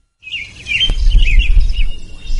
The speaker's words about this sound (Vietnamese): Tiếng hót trong trẻo, nhịp nhàng và vui tai hòa vào những tiếng chim họa mi khác khiến cả lâu đài như bừng sáng.